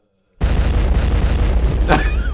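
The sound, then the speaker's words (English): A DJ bomb-drop effect bursts in with a sudden heavy boom, then sustains a loud roaring rumble, with a sweeping whoosh cutting through near the end. “Shout out to DJ Who Is Q. Drop bombs, bro.”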